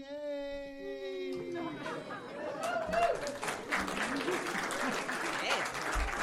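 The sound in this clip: Audience applause welcoming a speaker: a drawn-out vocal cheer opens, then dense clapping swells in with lively chatter and whoops mixed through it.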